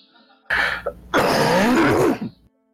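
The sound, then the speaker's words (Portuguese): A person with a flu coughs: a short harsh cough burst, then after a brief pause a longer rasping, throaty vocal strain, loud and isolated, ending in silence. “Desculpa. Eu tô meio gripado, então de vez em quando eu vou dar umas tosses assim meio cabulosas”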